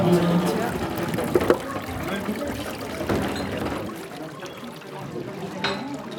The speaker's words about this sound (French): On le met dans le pressoir et là par contre la poudre va presser comme quand tu presses sur une éponge.